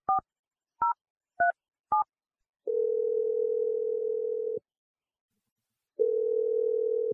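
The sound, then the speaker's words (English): A telephone call being dialed: four short keypad tone beeps, then two long, steady ringing tones with a pause between them, with no voices. “I was just giving you a call to check in and see how you're doing.”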